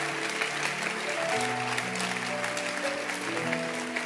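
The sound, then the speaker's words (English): A church audience claps their hands in appreciation of their pastor during a service, a fairly quiet, steady wash of many claps blended with sustained musical tones or singing. “before you sit down, I want you to clap your hands and let's appreciate our pastor Bishop Kobe”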